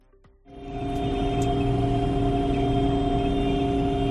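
Tractor engines rumbling during a slow protest march of dozens of tractors on the national road between Valladolid and León, Spain; a low, steady droning roar swells up quickly after a quiet start and holds.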